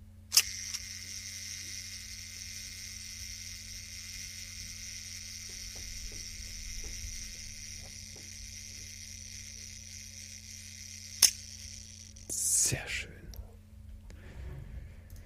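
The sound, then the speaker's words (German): Shutter of a Zeiss Icon Icoflex Favorit, a twin-lens reflex camera with a waist-level finder, fires as two sharp, isolated clicks far apart over a steady low hum, followed by a short burst of mechanical rattling. “eine Zeiss Icon Icoflex Favorit. Es handelt sich um eine zweiäugige Spiegelreflex mit Schachtsucher.”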